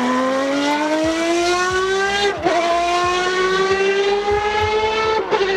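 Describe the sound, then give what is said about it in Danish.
Race car engines roar on a racetrack in Padborg, a loud, sustained harmonic whine that climbs steadily in pitch, drops sharply twice at gear shifts and climbs again, with no talk. “Det lyder heller ikke som en folkevogn, jeg har fra 72. Det er, ved du hvad, det er en racerbane til 3,8 milliarder kroner.”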